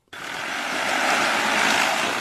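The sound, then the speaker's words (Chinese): An agricultural crop-spraying drone, loaded with pesticide for spraying rice paddies, starts abruptly with a loud rotor roar. The broad, buzzing whine grows slightly louder and stays steady as it takes off. “一台满载药剂的无人植保机快速起飞，沿着提前预设的飞行航线对连片稻田喷洒药剂”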